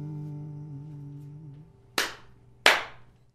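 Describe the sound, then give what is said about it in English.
Two sharp, separate hand claps from an audience at a live music performance, quiet and isolated, following a faint sustained tone that fades out. “I never finished the song and got just two distinct claps before.”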